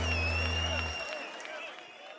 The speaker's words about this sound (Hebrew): תודה רבה לאור ריזלי, עשו לו כפיים.